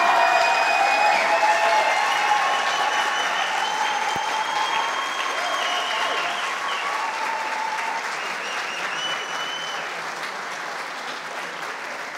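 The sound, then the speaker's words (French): An audience applauding again, a dense, sustained wash of clapping that carries through the whole stretch and eases only slightly toward the end. “je vais le redire et vous allez réapplaudir”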